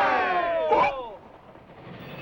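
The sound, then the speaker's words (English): A steam train running through a stormy night sounds a whistle of several harmonic tones that slide downward in pitch. A lower, steady rumble of the train continues underneath and carries on after the whistle fades. “The train steams its way through the stormy night.”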